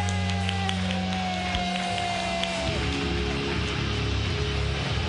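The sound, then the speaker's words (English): A comedy club audience cheers and applauds a comedian in a continuous wash of clapping and crowd noise that sits over sustained musical tones. “Put your hands together for Kevin Monroe.”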